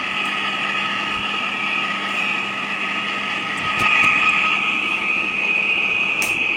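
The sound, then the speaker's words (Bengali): An electric fan runs with a steady whirring drone that holds evenly throughout and grows slightly louder partway through, with no voices. “ওকে, ফ্যানের সাউন্ডটা বেশি আসছে।”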